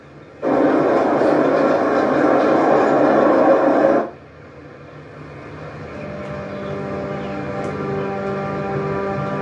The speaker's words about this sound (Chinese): 就是船过来了，然后火车也过来了